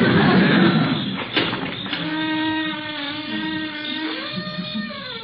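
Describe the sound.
A door is pushed open, giving a burst of rough noise and then a drawn-out grinding with wavering tones that rise briefly near the end.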